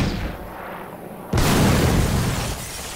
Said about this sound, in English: Ooh, an M1 rocket launcher.